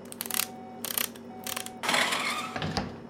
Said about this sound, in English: The maintenance hatch. Yeah. You're gonna need to unbolt it, though.